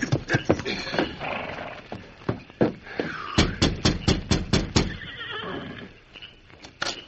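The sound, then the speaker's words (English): Horse hooves as a rider reins up in front of a ramshackle cabin: many heavy, uneven hoof thuds sound alongside a horse's loud whinnying and snorting. “Clint Starbuck rode eastward out of town. Several hours later, he reined up in front of a ramshackle cabin.”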